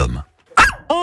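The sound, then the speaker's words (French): A big dog barks in short, sharp bursts. A person speaks around the barks. “la bonne gueule, c'est qui? Ça, c'est Kiki, ça, c'est mon chien Kiki.”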